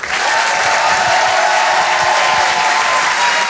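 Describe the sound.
An audience at a comedy club bursts into loud, dense applause with some cheering mixed in. The clapping stays even and sustained throughout, with no single voice standing out.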